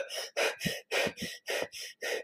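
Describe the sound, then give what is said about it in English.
Fast, deep breaths through the mouth, a person demonstrating a rapid breathing technique: a quick, even run of loud, forceful breath bursts with short gaps between them and no speech. “you take the fastest, deepest breaths that you can possible. And so it might kind of sound like this, like,”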